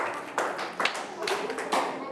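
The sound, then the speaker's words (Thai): A few scattered claps from children in a classroom, applauding classmates who acted out emotions. Short, separate bursts stand out over voices. “ปรบมือให้เพื่อนทุกคนเลยค่ะ”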